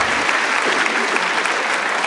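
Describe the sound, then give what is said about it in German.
Applause from an audience, a dense, even wash of many hands clapping that stays loud and steady throughout without letting up. “Applaus bitte hier.”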